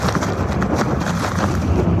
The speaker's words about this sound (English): These are the worst winds that we've gotten all night.